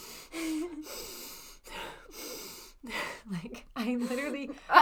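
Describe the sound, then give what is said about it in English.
Loud, breathy puffs and gasps from someone breathing close to the microphone, scattered among stretches of people talking. “can you breathe less loudly, please?”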